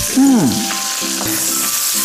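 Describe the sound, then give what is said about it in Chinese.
Food stir-fried in a pan after seasoning with chicken bouillon powder, sugar, light soy sauce and oyster sauce gives a loud, steady sizzle, with a brief scraping swoop early on and a few light stirring knocks. “翻炒。”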